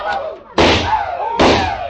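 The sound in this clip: Two sharp, loud gunshots from a drunken old trapper firing in town, each a sudden blast with a ringing tail, spaced under a second apart, with a voice talking around them.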